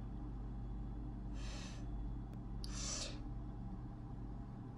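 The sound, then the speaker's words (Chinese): Snoring from a person asleep in bed: two faint, breathy snores about a second apart over a steady low hum. “这个小懒猪也还在睡，睡我床旁边啊，他打呼噜。”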